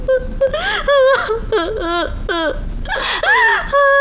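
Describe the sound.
A person crying loudly: many wavering, broken sobs and whimpering wails, with the pitch bending up and down between short catches of breath.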